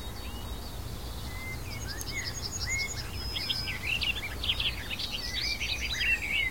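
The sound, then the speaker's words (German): Birdsong pours from a bird singing nonstop in a sunlit sea of blossoms: many bright chirps, whistles and trills follow one another, growing busier toward the end, over a steady low rumble. “Also dieser Vogel hält gerade nichts zurück. Er singt und singt und singt.”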